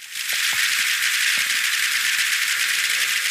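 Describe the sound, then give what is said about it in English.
A sped-up seismic recording of rock cracking on a mountain peak above a long, narrow fjord in the hours before a tsunami. Dense, rapid clicks form a loud, continuous crackle, like machine-gun rattle. “So this is the seismic activity that was going on at the time on one of those peaks, sped up so that you can hear it in the hours before the tsunami. Each click is a small quake as the rock cracks,”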